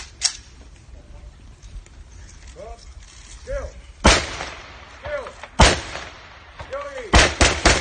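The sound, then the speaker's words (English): A volley of gunshots fired in a street in honour of a dead INLA member: several sharp, loud cracks, spaced unevenly and then in quicker succession, with voices murmuring between them. “here is the sound of a volley of shots being fired in honour of a dead INLA member.”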